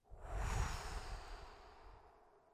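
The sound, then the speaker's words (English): A deep breath blown out through the mouth, a soft, airy rush that swells quickly and then fades gradually over a couple of seconds, with no talking. “Another big inhale, blow through your mouth.”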